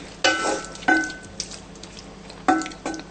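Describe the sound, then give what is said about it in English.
Vegetables frying in a pan and being stirred until golden: a soft, steady sizzle with a few sharp utensil scrapes and clanks against the pan, spaced irregularly and fairly faint. “After a while, we're going to add in the vegetable, okay? Just stir it until it's golden, yeah?”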